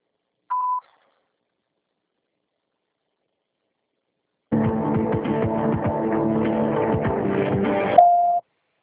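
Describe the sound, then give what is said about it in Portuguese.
A voicemail beep sounds once as a short, steady, mid-pitched tone. After a few seconds of silence comes a longer, dense, buzzy harmonic sound that ends in another brief tone. “Sua chamada está sendo encaminhada para a caixa de mensagem e será sujeita a cobrança após o sinal. Após o sinal, grave sua mensagem.”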